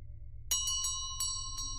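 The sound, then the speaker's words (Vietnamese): A bronze bell jingles with five quick, bright metallic strikes, their high ringing tones sustained and overlapping as the clanging continues. “bên tai cô là tiếng chuông đồng len keng, nghe chối vô cùng”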